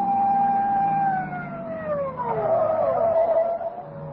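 A police car siren wails as a loud, sustained tone that glides downward in pitch. A second wavering tone then takes over and holds steady to the end.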